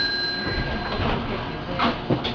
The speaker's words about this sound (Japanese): お待たせいたしました。発車いたします。